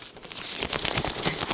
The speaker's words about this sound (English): That's the sound of thousands and thousands of coupons.